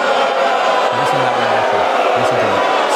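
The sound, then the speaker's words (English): A crowd boos a political speech, with one side of the audience jeering. Dense, steady crowd noise runs throughout, and a few low shouted voices stand out in short bursts. “And everybody on the Republican side, for the most part, is booing this. And I want you to know what that sound was.”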